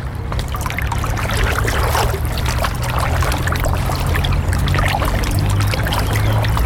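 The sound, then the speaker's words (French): Splashing footsteps wade through water on a normally dry path flooded on the way to a plain, with a dense, continuous wash of sloshing and trickling and a steady low hum underneath, without pause. “Alors là, on commence déjà à marcher dans l'eau.”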